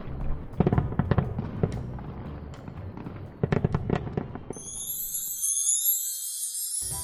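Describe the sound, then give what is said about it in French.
Fireworks rockets being set off: a busy run of loud bangs, pops and crackles, followed by a sustained shrill, high whistling as the bursts die away. “allumez toutes les fusées de feux d'artifice et faites du bruit.”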